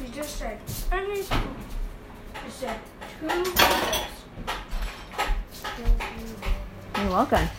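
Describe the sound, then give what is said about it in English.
Bowls clatter as they are passed around, with a few sharp knocks and rattles mixed in among people talking. “Everyone, pass me two bowls.”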